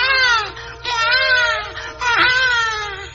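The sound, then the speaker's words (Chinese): A baby cries loudly in three long wailing bursts, each separated by a brief catch of breath, with the pitch wavering through each wail. “这个时阵，忽然间听到囡仔的哭声”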